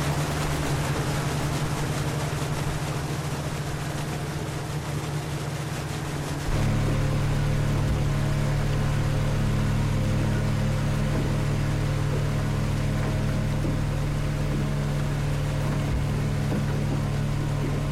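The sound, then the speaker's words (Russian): A motorboat engine drones steadily on the sea, a low humming motor tone over a wash of water noise. It grows noticeably louder after about six seconds and then holds an even, continuous roar. “В моторной лодке, управляемой Жорой Средним, сидят Борис, Валера и Жорик младший.”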